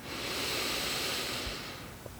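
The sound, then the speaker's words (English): A single long, deep breath drawn in during a guided walking meditation. It is a steady, airy rush that swells and then fades over about two seconds, with no talk over it. “Take a few deep breaths. Deep inhale.”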